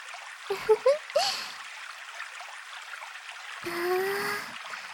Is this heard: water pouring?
yes

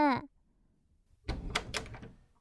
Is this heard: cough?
no

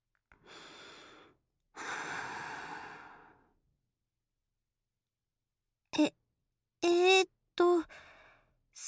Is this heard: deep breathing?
yes

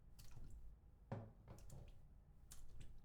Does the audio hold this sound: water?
yes

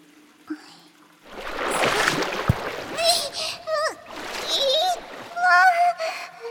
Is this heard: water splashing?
yes

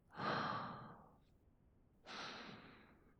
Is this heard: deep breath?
yes

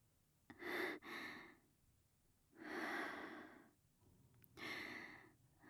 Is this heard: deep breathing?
yes

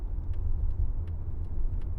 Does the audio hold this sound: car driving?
yes

